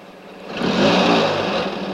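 A car engine revs as the car drives off. The steady engine note swells to a peak partway through and then holds at a fairly even level, with no talk.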